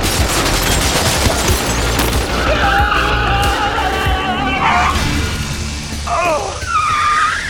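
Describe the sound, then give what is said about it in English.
Machine guns mounted on car roofs fire in loud, rapid, continuous rattling bursts over a heavy roar of car noise, with wavering high tones running through the mix. “You mounted machine guns on your roofs?”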